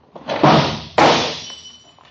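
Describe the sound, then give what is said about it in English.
A chair shoved over and a drinking glass knocked onto the floor: two heavy thuds about half a second apart, the second with a bright, thin ringing tail that fades away. “I'll squirm my chair over there and knock the glass on the floor to break it.”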